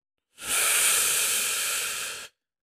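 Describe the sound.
One long, slow breath: a steady, airy hiss that lasts about two seconds and fades out evenly, with nothing else around it.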